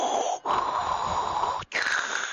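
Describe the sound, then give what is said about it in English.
Loud, heavy mechanical breathing imitated by a voice over an open voice-chat mic, with two long wheezing breaths broken by short pauses. “He's doing the Darth Vader impersonation.”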